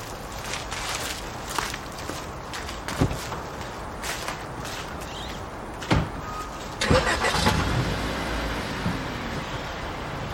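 A car engine starts before the car drives off. A few sharp clunks and knocks come first, then a louder, rougher engine rumble builds toward the end, with no talk.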